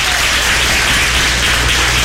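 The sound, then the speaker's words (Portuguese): An audience claps hands during a church service, a loud, continuous wash of dense clapping. The sound has a rough, hissy, somewhat distorted texture and stays steady throughout. “Mas cadê as palmas? Cadê as palmas mesmo?”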